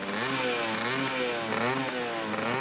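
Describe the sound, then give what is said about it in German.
A Vespa scooter engine runs with a buzzy, wasp-like drone whose pitch wavers up and down as it revs, fairly faint and steady throughout, at a Vespa anniversary gathering of fans in Rome. “Piaggio dieses Geräusch hörte, als der Motor lief, sagte er: Das klingt ja wie eine Wespe. Und dann gab man dem Fahrzeug diesen Namen: Vespa-Sound.”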